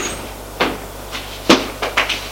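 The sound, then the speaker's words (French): A servant knocks on a door with several sharp raps at an uneven rhythm. The loudest comes in the middle, and a quick cluster of knocks follows near the end. “Arrivé au premier, domestique frappe à la porte.”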